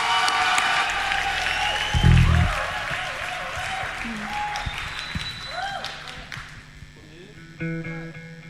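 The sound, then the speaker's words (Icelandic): An audience at the Músíktilraunir 2025 band contest applauds the last band, steady clapping with a voice speaking over it, the applause thinning and fading away toward the end. “Síðasta hljómsveitin í músíktilraunum 2025 heitir Geðbrigði, gefum þeim gott klapp.”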